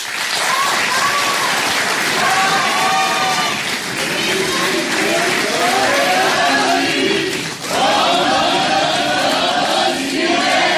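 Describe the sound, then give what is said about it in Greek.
Crowd chanting the Greek slogan 'Antistasi kai pali' at a left-wing political event with Yanis Varoufakis. It is a loud, continuous mass of voices with clapping mixed in, steady throughout apart from a brief dip near the end. “Αντίσταση και πάλι. Το λέει ο Γιάννης Βαρουφάκης, το φωνάζει και το κοινό από κάτω.”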